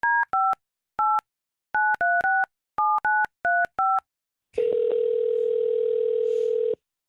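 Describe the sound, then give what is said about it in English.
Someone dials a telephone number on a touch-tone keypad: ten short, clear electronic tones in an uneven rhythm, then a long, steady, low tone. “But I wanted to know if that was actually really his ex's number, so I want to call it and see who answers.”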